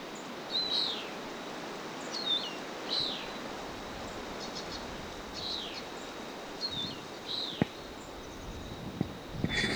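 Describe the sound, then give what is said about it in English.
A bird calling with many short, high chirps that come in scattered clusters over a faint, hissing outdoor background, with a couple of soft clicks near the end. “A bird.”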